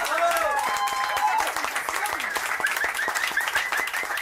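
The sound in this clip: Audience applause at a folk music concert: dense, steady clapping that holds at an even level for about four seconds, with crowd voices mixed in.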